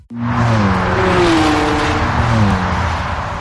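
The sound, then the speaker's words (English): A car being driven in Germany, its engine giving a loud, steady tonal hum whose pitch sweeps and shifts as it accelerates, with a continuous rushing road noise underneath. “I'm never going to get used to driving in Germany.”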